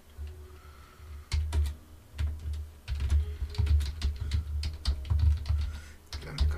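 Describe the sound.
Typing on a computer keyboard while entering a city and location: irregular clusters of sharp key clicks over a low, steady hum that continue throughout, with no speech.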